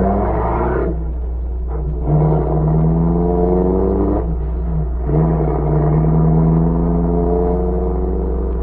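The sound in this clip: A car pulls away, its engine giving a loud, steady droning hum with a low rumble underneath and a few brief dips in the tone as it drives off.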